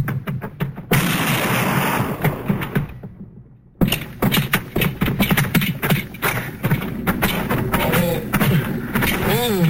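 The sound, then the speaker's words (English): Gunshots in a radio drama during a frontier marshal's arrest scene, heard as many sharp, loud bursts in a dense run, broken by a short silence, with a voice near the end. “Stop or I'll shoot!”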